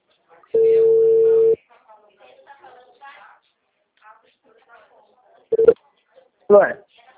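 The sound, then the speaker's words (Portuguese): A single steady ringback tone from an outgoing phone call to bank clients sounds for about one second. Faint murmuring voices follow, then brief louder bursts of speech as someone answers. “Tô ligando aqui para os clientes.”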